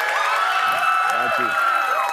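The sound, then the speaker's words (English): A crowd cheers at the University of Kentucky in Lexington, a steady, continuous roar while a voice speaks over it briefly. “The cheers are getting louder here in Lexington.”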